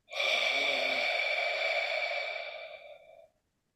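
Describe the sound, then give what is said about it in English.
A single long exhale through rounded lips with the tongue dropped, part of a Boabom breathing exercise from a Tibetan-style meditation practice. It is a breathy rushing hiss lasting about three seconds, holding steady, then tapering off, with no talk. “Then we drop our tongue, we round our lips, and we exhale like this.”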